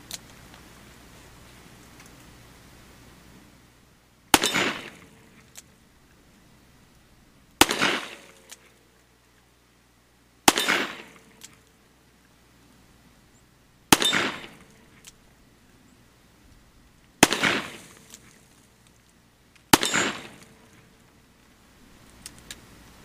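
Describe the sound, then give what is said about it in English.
Six sharp, loud gunshots from a Smith & Wesson Model 66 revolver, each a hard crack with a short decaying tail, spaced roughly three seconds apart with near silence between. “Now we're going to shoot the Model 66 Smith & Wesson.”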